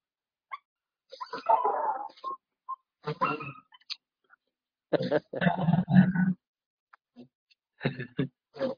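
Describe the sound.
A puppy whimpering and yipping in a series of short, high, irregular bursts, some longer whines and some sharp yips, separated by brief pauses.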